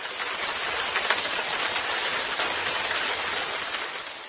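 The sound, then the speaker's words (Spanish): Steady, dense rain, as in a heavy downpour, hisses continuously without a break at an even, fairly loud level, with no voices. “ese es el ruido de la lluvia”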